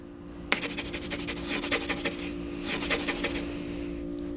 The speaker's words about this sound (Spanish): En la séptima página, vamos a dibujar siete campanitas.